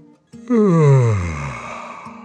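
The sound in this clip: A voice imitating a dragon's yawn: one long, loud, voiced yawn whose pitch slides steadily downward, then trails off into a quieter, breathy tail. No words are spoken.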